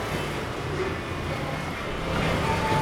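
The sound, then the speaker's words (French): Cars passing on a Paris street make a continuous low traffic rumble with broad road noise, steady at first and swelling slightly louder near the end. “Et c'est ce qui amène un peu de plaisir à l'auditeur parce que les voitures passent. Et, ça fait c'est urbain.”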